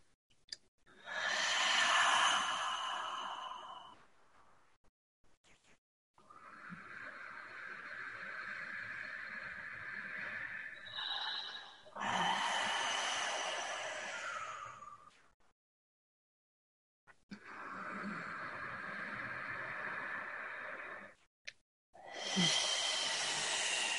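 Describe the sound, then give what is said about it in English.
Slow, deep breathing during a guided meditation: several long, airy inhales and exhales, each drawn out over a few seconds and separated by short silent pauses, soft and unhurried. “And take three breaths of reverence back into your body.”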